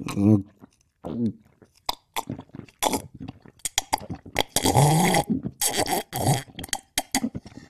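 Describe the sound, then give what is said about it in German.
Loud wet slurps and gulps of cocoa made from instant powder, irregular bursts of mouth and swallowing noises, some with a throaty, gurgling tone. “Und jetzt trinke ich einen schönen Kakao mit Pulver von Suchard Express.”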